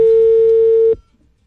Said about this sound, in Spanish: Su llamada está siendo transferida. Nos está colgando.